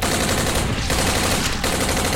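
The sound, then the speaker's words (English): Rifle gunfire sprayed into a gathered crowd in a science-fiction battle: a dense, continuous roar of rapid automatic shots that runs unbroken and loud the whole way through. “He began firing into the crowds of congregated Mizarithians”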